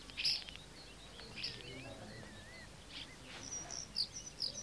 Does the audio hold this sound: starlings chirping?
yes